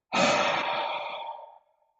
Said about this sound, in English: And then inhale through the nose. And then exhale through the mouth.